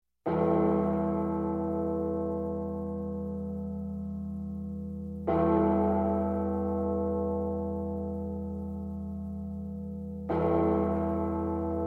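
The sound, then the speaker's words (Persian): A 910 kg bronze bell tolls at the opening of a song, struck three times at even intervals. Each deep, rich strike rings out loud and then decays slowly into a long, humming sustain before the next one. “یه ناقوس برنزی 910 کیلوگرمی. گوش کنین اول آهنگو صدای ناقوسو.”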